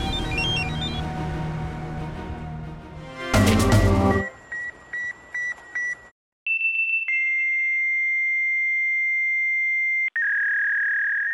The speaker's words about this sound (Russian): Если вы слышите этот звук, и вам меньше 30, вы, вероятно, думаете, что это сломался терминал оплаты. Но для всех остальных это звук офисной жизни 80-х и 90-х. Это звук факса.